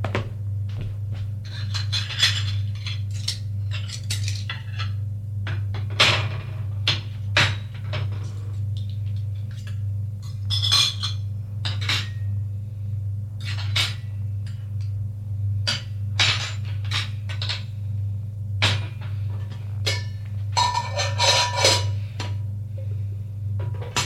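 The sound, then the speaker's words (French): Cutlery and dishes clink as a waiter sets a table from a cart: many irregular metallic taps and rattles of silverware sound throughout, over a steady low hum. “C'est le serveur avec un chariot. Il va déposer le couvert sur la table.”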